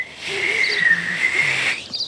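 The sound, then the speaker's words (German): A person whistles one high, sustained note that wavers slightly in pitch for under two seconds over a faint hiss. “Es macht aber solchen Spaß. Ich kann pfeifen.”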